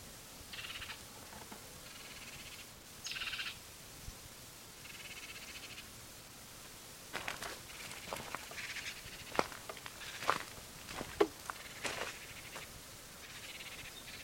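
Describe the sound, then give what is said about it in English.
Protest calls from a bird, faint: a few harsh, buzzy bursts early on, then a scattered run of short, sharp notes that grow a little louder toward the end. “There's also another bird giving protest notes. So there are 2 birds here.”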